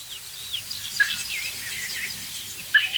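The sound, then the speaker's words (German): Young birds calling from a nest give a few thin, high chirps, short and faint, over a quiet background. “Hundertprozentig auch Jungvögel. Im Nest, ich glaube, ich habe gerade einen gehört.”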